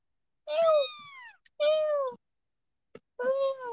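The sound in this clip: Three high, drawn-out cat meows, each with a downward-sliding pitch. Short pauses separate them, and a couple of faint clicks fall in the gaps.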